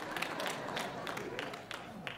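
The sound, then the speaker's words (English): Singers clap along in a steady rhythm. The hand claps are fairly even and moderately loud, and they continue for the whole clip. “All the singers are clapping right now.”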